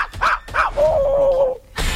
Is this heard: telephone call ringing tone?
no